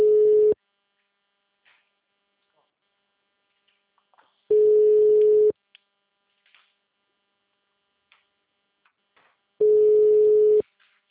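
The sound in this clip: A telephone ringback tone while a call is placed: three steady, single-pitched tones of about a second each, evenly spaced by long silent gaps and fairly loud.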